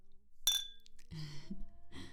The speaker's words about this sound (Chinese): 那干杯